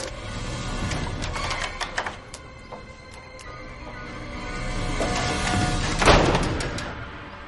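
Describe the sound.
A printer prints a document with busy mechanical clicking and rattling, swelling into a louder grinding burst near the end before settling.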